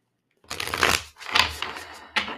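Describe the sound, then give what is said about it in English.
Playing cards being shuffled: three bursts of crisp papery riffling, two longer swells followed by a short final snap, heard alone. “So let's just get some card ASMR.”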